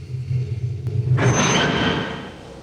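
Tram slowing to a halt at a station, a low, steady rumbling hum giving way to a loud, broad hiss that swells and then gradually fades.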